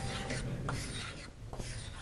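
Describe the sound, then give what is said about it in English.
Chalk scrapes across a chalkboard as circles are drawn, a few continuous, gritty scratching strokes at moderate loudness with short pauses between them. “Some folks think we forget how to use chalk. I remember how to use chalk. Let's draw some circles.”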